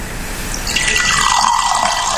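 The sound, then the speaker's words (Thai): Red grape wine is poured in a continuous, fairly loud gurgling stream of liquid splashing into a vessel. “อันนี้คือไวน์องุ่นแดงนะที่เทให้ฟังเมื่อสักครู่นี้นะฮะ”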